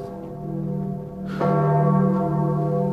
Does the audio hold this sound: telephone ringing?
no

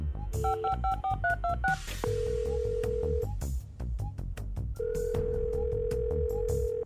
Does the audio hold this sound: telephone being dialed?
yes

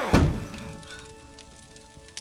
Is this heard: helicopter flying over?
no

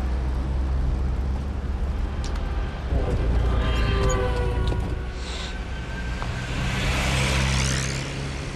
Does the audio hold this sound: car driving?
yes

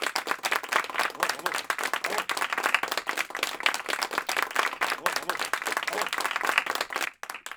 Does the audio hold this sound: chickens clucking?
no

